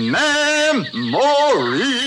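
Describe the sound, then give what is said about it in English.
Animated birds of a tiki room singing: a bright, melodic voice with rich harmonics that swoops up and down in pitch across a few sustained phrases. “Those amazing birds, they come to life before your eyes. They talk, they whistle, they tell jokes, they sing”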